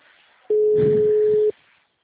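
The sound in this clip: One steady telephone ringback tone of an outgoing call, lasting about a second and loud and clean. It rises abruptly out of a faint hiss and cuts off just as sharply into near silence.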